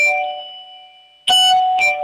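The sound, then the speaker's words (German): A loud doorbell chime: a fading bell tone, then two sharp, bright strikes in quick succession, each ringing out with a clear tonal decay. “ihr habt eine laute Klospülung und eine laute Türklingel.”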